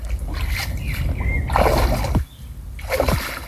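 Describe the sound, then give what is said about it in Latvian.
Someone climbing into the Daugava river stirs the water, with a few splashy bursts and sloshes rising out of a constant outdoor rush of background noise. “Viņš rāpjās ūdenī tagad. Nu, ies tagad iekšā, jā.”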